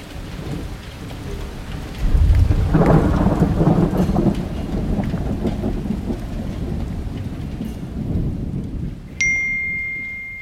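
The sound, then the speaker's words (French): A heavy thunderstorm in May, with thunder rumbling loudly for a couple of seconds over steady, pouring rain that continues throughout. A brief high electronic ding sounds near the end. “c'est l'énorme orage qui a éclaté le 9 mai et qui s'est terminé par une pluie interminable et sauvage.”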